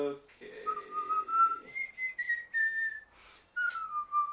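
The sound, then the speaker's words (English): A person whistles alone, a few short melodic phrases with a clear, pure tone that wavers and shifts between higher and lower notes, broken by brief pauses. “Like my whistling?”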